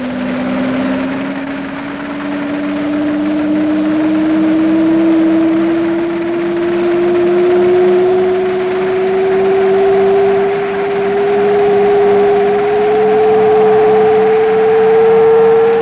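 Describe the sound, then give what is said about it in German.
A Stuka dive bomber diving steeply toward railway installations under heavy anti-aircraft fire, a loud, sustained howling drone whose pitch climbs slowly and steadily all the way through. “Bei starkem polnischen Abwehrfeuer stürzt der Stuka-Flieger im Steilflug auf die Bahnanlagen zu und zielt dabei mit der ganzen Maschine.”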